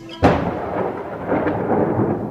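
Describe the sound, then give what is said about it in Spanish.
Thunder on a summer night breaks with a sudden sharp crack, then rolls into a long, deep rumble that swells again before slowly fading. “Noche de estío. Nace y muere un relámpago. Conforme truena.”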